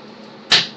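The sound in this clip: A toy dart strikes a target: one short, sharp impact that breaks a near-silent background and decays quickly.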